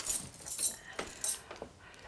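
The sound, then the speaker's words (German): Keys jangle as they are handed over: a few faint, brief, bright metallic clinks. “Hier ist der Schlüssel.”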